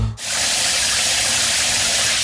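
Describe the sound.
Shower water runs in a steady, loud, unbroken hiss that starts abruptly after a brief moment of lower sound and continues to the end.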